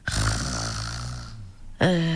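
Snoring from a person asleep: one long, deep, drawn-out snore with a buzzing tone, then a brief pause before a second loud snore begins, with no talk.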